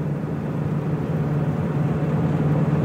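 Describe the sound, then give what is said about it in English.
Steady low engine drone and road rumble during a ride in an AMC AMX car, continuous and even in level from start to end, with no talk. “Oh, this is a life dream of mine, you know, Dad. Take you for a ride in AMX.”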